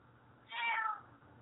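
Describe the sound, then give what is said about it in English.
A cat gives a single short meow that rises and then falls, fairly soft and heard alone over a quiet background. “And the cat agrees with everything you said there”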